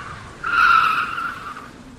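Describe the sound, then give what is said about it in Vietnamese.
A luxury platinum Audi brakes suddenly with skidding tyres: a high, piercing squeal breaks in and holds for about a second before fading out. “Tiếng ô tô phanh gấp.”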